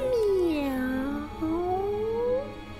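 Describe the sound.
A human voice imitating a cat's meow, two drawn-out mews, the first sliding down in pitch and the second slowly rising, moderately loud and unaccompanied.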